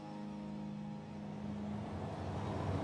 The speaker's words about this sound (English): drives a sedan out of the mountains above Chongqing